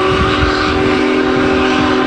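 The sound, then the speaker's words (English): Union Pacific Big Boy steam locomotive crossing the Cuyahoga River, a loud, sustained whistle chord held steadily above a rumbling, chugging undertone. “Union Pacific number 44, made brief stops in Lorain and Euclid. IdeaStream Public Media's Gabriel Kramer was among the crowd. A few hundred people watched from the towpath trail as Big Boy choo-chooed”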